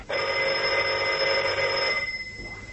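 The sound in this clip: Telephone ringing in one steady, buzzing tone that lasts about two seconds and then trails off, with no voices over it.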